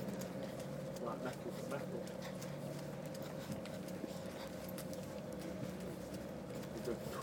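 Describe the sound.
A ferry's engine rumbles as it reverses, a steady, loud low drone with a constant hum that holds unbroken throughout.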